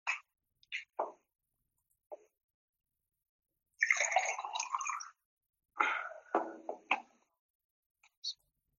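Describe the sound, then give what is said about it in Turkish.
Someone pausing to drink water, heard as a few short wet gulps and swallows separated by silence, plus two longer sloshing bursts in the middle and a small final gulp. “Evet, siz ben bir saniye su içeyim, siz de düşünün.”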